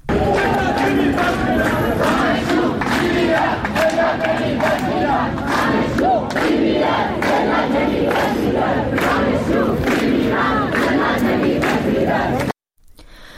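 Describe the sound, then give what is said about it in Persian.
Students at the University of Tehran chant anti-government protest slogans as a large crowd, a loud, sustained and rhythmic mass of voices that runs almost unbroken before cutting off abruptly near the end. “دانشگاه تهران رو میشنویم صدای شعار دانشجوها که میگن دانشجو میمیرد ذلت نمیپذیرد.”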